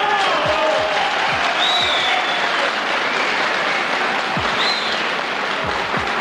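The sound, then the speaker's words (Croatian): Applause from a crowd at a political meeting: dense, continuous clapping that holds at a steady, fairly loud level for the whole stretch with no pauses. “Kako vidim, molim vas, ovdje aplauz, ovaj aplauz.”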